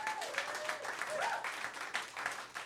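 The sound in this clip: An audience applauds after being asked to cheer two guests. The clapping is steady and moderately loud for under three seconds, with a thin tonal line briefly gliding through it.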